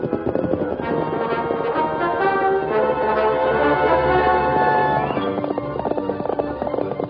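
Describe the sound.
Clip-clop of horse hooves as riders travel on horseback, a steady, continuous patter of hoofbeats blended with sustained tonal sound over the whole stretch.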